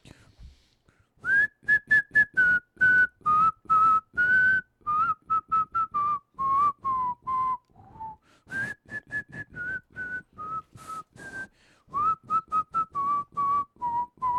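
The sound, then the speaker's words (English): A person whistles into the side of a microphone, giving many short, clear whistled notes grouped in quick phrases with brief pauses between them. “I kind of whistled into the side of the microphone.”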